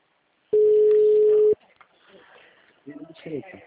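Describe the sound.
A telephone ringback tone sounds on a call as one long, steady electronic beep of about a second. Faint line noise follows, then a voice comes on the line.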